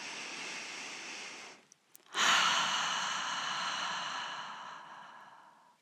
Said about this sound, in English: And now let's take a gentle inhalation through the nose, releasing it completely through the mouth.